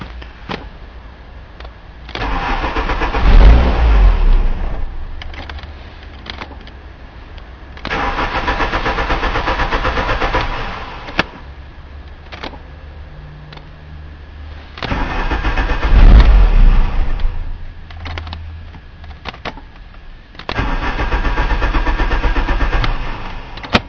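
A car engine that was switched off and won't restart is cranked and revved in four separate bursts, each a loud, rough roar lasting a few seconds, with quieter low rumbling between them.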